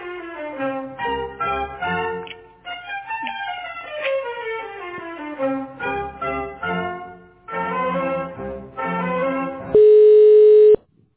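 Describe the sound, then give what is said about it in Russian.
Telephone tones play while a call is transferred to an operator: a clean electronic melodic sequence of short stepped tones, with no voices, ending in a steady, loud sustained tone. “Перевожу звонок на оператора. Пожалуйста, оставайтесь на линии.”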